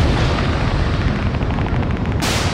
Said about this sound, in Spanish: Una bomba, una granada.